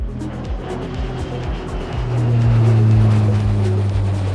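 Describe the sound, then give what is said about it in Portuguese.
Engine roar of a private jet taking off: a low, steady drone that swells louder about halfway through and then holds, with a droning hum running throughout. “aperte os cintos, pois esse jatinho vai decolar.”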